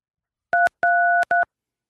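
Telephone keypad dialing tones: three clear dual-pitched beeps, the middle one noticeably longer than the short first and last, sounding alone with no talk.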